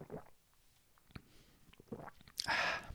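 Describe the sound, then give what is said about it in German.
A sip from a can of Shirin David's Dirty Dirty drink, a white tea extract drink meant to taste like cotton candy: faint soft mouth noises, then a louder hissing slurp near the end. “wie schmeckt uns denn nun diese, äh, dieser Dirty Dirty bei Shirin David. Hm. Ich nehme nochmal einen Schluck.”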